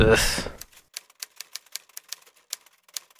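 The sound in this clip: A writer typing on a typewriter: after a brief voice at the start, many sharp, crisp keystroke clacks follow in a quick, slightly uneven rhythm.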